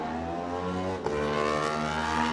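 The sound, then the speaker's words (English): Racing motorbike engine, an Aprilia, leaving the start at the TT: a loud, steady, harmonic engine drone that holds throughout, with a brief shift in tone midway. “Fantastic times from these different makes of motorbikes as they head off from here.”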